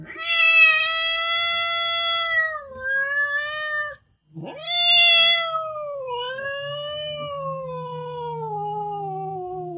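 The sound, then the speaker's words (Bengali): A frightened cat meows in two long, drawn-out, wavering cries. The first sags in pitch partway through, and the second follows after a brief gap. Both are loud and clear, with no talk over them. “বিড়াল ভয়ে জড়সড় হয়ে বলল,”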